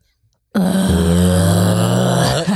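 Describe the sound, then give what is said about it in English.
A voice imitates a wordless groan, the weary sound of someone coming home from work: after a short silence, one loud, low, sustained voiced groan that holds steady for about two seconds before trailing off. “It's just like, no, like wordless groan. It's like when you come home from work and you just go,”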